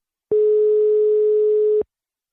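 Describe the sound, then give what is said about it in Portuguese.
Ringback tone on an outgoing telephone call: a single loud, steady, mid-pitched tone lasting about a second and a half, with abrupt start and stop and silence around it. “Tá chamando, tá chamando.”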